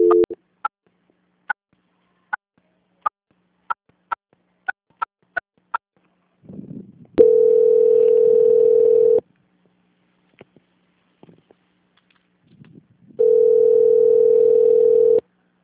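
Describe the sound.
Telephone line tones during a call transfer: a string of many short clicking pips, then a long steady mid-pitched tone, a quiet stretch with faint rustles, and a second identical sustained tone.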